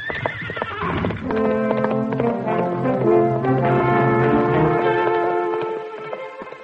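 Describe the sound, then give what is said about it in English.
Horses neigh and their hooves clop in a drama set in Kansas around the start of the Civil War. Long, harmonic whinnies ride over steady hoofbeats, and the sound fades toward the end. “I'll saddle the horses.”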